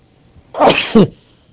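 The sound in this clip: A single loud sneeze: a drawn-out first burst followed by a sharper, stronger second one. It is heard alone, with no talk around it.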